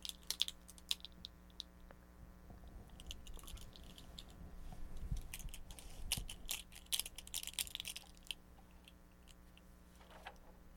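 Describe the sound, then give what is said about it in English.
Spoons clicking and clacking together as they are shaken, a long run of sharp, irregular clicks that come in busy clusters, with no talking over them. “You just want to play with those spoons, don't you? They make cool noises. Shake, shake, shake.”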